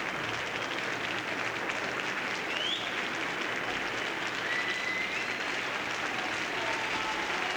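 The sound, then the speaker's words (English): A concert audience applauds a guest conductor, calling him back to the stage for bows. The clapping is dense, even and sustained, with no voices over it. “The audience is still calling our guest conductor back to the stage for bows.”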